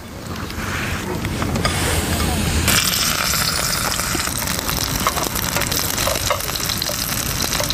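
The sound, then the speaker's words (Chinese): Steady, loud sizzle of shrimp paste wrapped in blanched leaves pan-frying over low heat, a dense continuous hiss that brightens slightly partway through and holds evenly to the end. “焯过水的甲楼叶包裹上虾肉泥，下锅小火煎制。”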